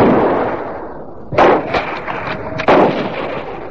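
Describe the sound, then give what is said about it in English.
Gunshots fired during a hunt: two sharp, loud booming reports stand out, with a few lighter bangs and thumps scattered between them over a steady rough background noise. “Now you're shooting.”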